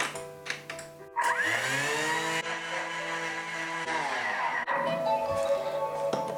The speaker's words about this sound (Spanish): Empiezo con el relleno, así que pongo el azúcar, pongo la tapa y lo pongo 30 segundos a velocidad 10.